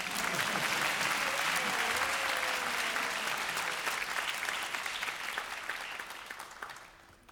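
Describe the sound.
Audience applause at a live performance after a drum solo ends. Dense, sustained clapping holds steady, then thins and fades out over the last second or two.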